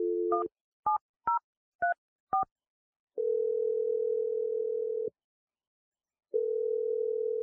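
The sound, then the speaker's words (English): A telephone dials a number with five short touch-tone beeps, each a different pitch. Two long, steady ringing tones follow, with a silent gap between them. “Okay, here we go. Dialing her number now.”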